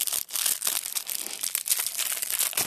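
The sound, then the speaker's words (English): A foil wrapper on a trading card promo pack crinkles and tears open, giving a steady, loud stream of crackling plastic rustle with no voices. “Got the promo pack here. Let's crack that.”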